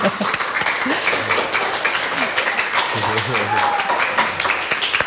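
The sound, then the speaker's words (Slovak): An audience at the close of a Slovak literature festival applauds itself, with brisk, dense clapping running throughout and a few voices murmuring beneath it. “teraz si zatlieskate sami sebe, pretože za aktivitu a účasť ďakujeme vám, milé publikum.”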